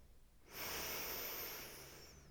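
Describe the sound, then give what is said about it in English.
One long, deep breath during a guided relaxation exercise: a steady, airy hiss starts abruptly after a short quiet pause, swells, then slowly tapers off. No one speaks. “I want you to just take a deep breath in”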